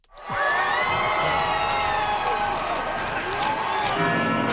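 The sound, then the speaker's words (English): Crowds cheer for Pope Leo at Madrid's royal palace: loud, sustained cheering and shouting from many voices that rises quickly and holds before cutting off near the end. “That's the sound of crowds in Madrid welcoming Pope Leo at the city's royal palace.”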